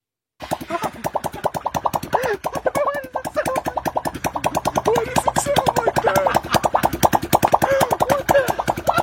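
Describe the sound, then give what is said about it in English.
A balloon stretched over a car's tailpipe with its top cut off flaps in the exhaust, making many rapid, regular buzzing pulses like a steady beat, with squeaky wobbling tones that rise and fall. “A couple folks took a balloon, stretched it over the top of the tailpipe of an automobile. Oh, okay. And then cut off the top of what would be the top of the balloon.”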